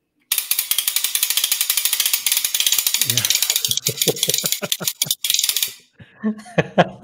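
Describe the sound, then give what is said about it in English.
A cranked ratchet noisemaker used as a percussion instrument gives a rapid, steady run of loud dry clicks that later break into slower, uneven clacks before stopping. “This is probably the best ratchet. Just think about somebody like cranking up something or gear.”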